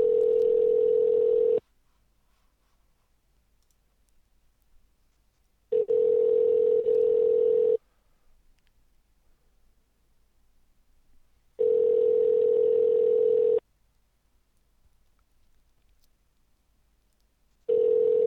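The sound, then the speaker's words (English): Telephone dial tone on a phone line, a steady hum in bursts of about two seconds separated by longer silences, with three full bursts and a fourth cut off at the end. “I had the dial tone already.”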